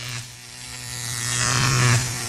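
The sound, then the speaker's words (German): An electric shaver, brought out as a gift, gives a steady buzzing drone that swells louder toward the end before dropping back. “Was ist das? Ein Rasierer.”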